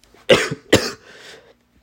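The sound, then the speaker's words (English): A person coughs twice in quick succession, two harsh, breathy bursts with a short catch between them and a faint rasping tail, heard alone and fairly quiet. “the coughs are getting worse.”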